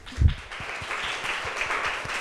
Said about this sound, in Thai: ขอบคุณมากค่ะที่แลกเปลี่ยนกันปรบมือให้เพื่อนหน่อยค่ะ